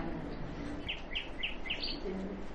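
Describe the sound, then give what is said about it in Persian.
A nightingale sings a quick run of about five high, bright chirps over a low background hum. “یکمی بخونه برامون این بلبل،”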